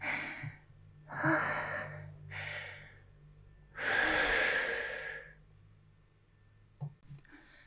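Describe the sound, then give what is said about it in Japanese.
Heavy breathing of someone catching their breath after exertion: a few loud, rasping breaths, the last one long and heaviest, followed by quiet with a couple of faint clicks. “ああ、やっと呼吸が戻ってきました。普通の呼吸を今しております。”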